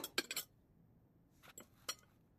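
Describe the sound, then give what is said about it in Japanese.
Faint, light clinks of cutlery against a plate as food is cut into portions, roughly six pieces. The clinks come in two small clusters, a quick run at the start and a few more a moment later, with near silence between. “何等分？とりあえず6等分くらい？それともこのまま行く？さすがのお前もこのままは食いにくいってか。じゃあ適当に切るぞ。”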